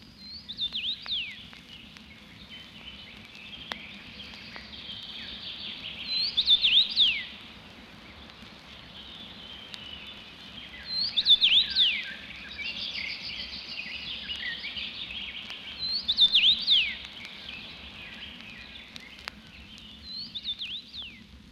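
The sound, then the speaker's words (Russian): Common rosefinch singing: a few louder, high whistled phrases recur at intervals over a steady bed of other birdsong, with no voices. “А прозвали птицу по ее песне. Чиви-чиви-бью. Чечевица.”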